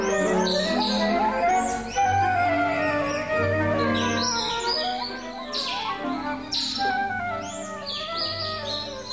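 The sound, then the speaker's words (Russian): Birds chirping as they are set free: many quick, bright, high tweets tumble over one another in a busy, continuous flurry, fairly loud throughout, over a fuller tonal background. “отпущу-ка я птиц на волю. Жалко их все-таки. Ну-ка, птицы, летите по-добру, по-здорову.”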